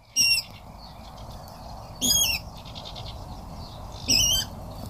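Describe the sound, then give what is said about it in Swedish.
A water rail calls from reeds in a nature reserve with three loud, harsh, high-pitched squealing bursts spaced about two seconds apart, each short, over a faint steady background hiss. “Det här är en vattenrall. En otroligt spännande och fin fågel som man kan se om man har tålamod.”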